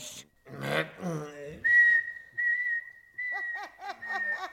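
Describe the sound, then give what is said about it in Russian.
Whistling at a parents' meeting: a long, steady high whistled note, then a quick series of short chirped whistles, with a brief voiced sound at the start. “Я не потерплю, чтобы свистели на родительском собрании.”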